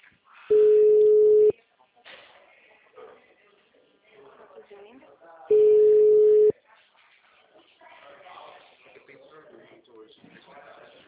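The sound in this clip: Ringback tone on a telephone line as a call rings out: two steady, low, one-second tones about five seconds apart, with faint muffled noise filling the gaps between them.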